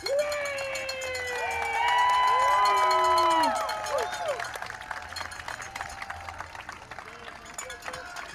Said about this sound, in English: Kylie getting a huge ovation from the crowd.